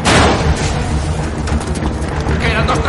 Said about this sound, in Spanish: Uno de los hombres coloca un dispositivo en la puerta trasera y el otro pulsa un botón. La puerta estalla.